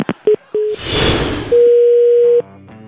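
Telephone line tones after a dropped call: a few short, clipped beeps, then a harsh burst of noise, followed by a loud steady tone that holds for about a second before cutting off.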